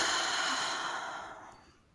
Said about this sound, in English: And now take a long, slow, deep breath in. And gently let that go.